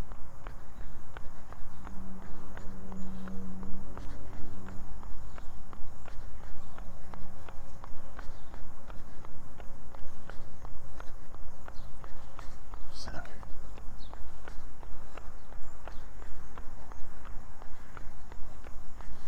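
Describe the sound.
Running footsteps of a person on a long run in Central New York: a steady, rapid rhythm of many soft thuds that continues throughout, with a voice speaking at times and a low rumble alongside.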